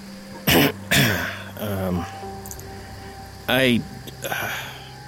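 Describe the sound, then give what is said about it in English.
A man clears his throat in a few gruff, rasping bursts, some harsh and some voiced, with quieter stretches between them. “He cleared his throat, drawing Riva's attention from the woods.”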